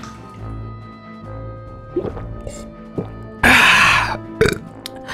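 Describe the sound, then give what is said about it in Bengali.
Water poured from a clay pitcher, heard as a single loud gush lasting about half a second, followed by a few short splashes and drips over a quiet low background. “আচ্ছা জল খাবেন? ও তো কুঁজোয় রাখা, দাঁড়ান দাঁড়ান আমি একটু এনে দিচ্ছি।”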